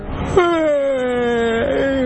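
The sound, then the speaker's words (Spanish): A drawn-out vocal yawn: a breathy onset opens into a sustained voiced tone that slides slowly downward, with a small bump in pitch near the end. “Ay, me dan ganas de bostezar a mí también, te juro. ¿Se contagia el bostezo? ¿Bostezaste?”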